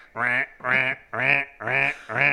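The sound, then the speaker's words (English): A voice imitates the quacking of an angry hen mallard duck circling overhead, giving five evenly spaced, nasal, buzzy quacks of equal loudness in a steady rhythm. “It was like an angry hen mallard flying around, just doing circles around us, essentially. And quacking.”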